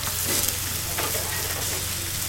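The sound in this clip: Sizzling of grey buckwheat pancake batter frying in a pan on an old kitchen cooking stove at a moor museum in Emsland; a steady, loud, crackling hiss runs throughout with no talk.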